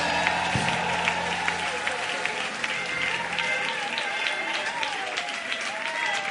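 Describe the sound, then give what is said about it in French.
An audience at a church service applauds and cheers in praise of God, with sustained, dense clapping and raised voices running throughout. “Est-ce qu'on peut acclamer le Seigneur Dieu?”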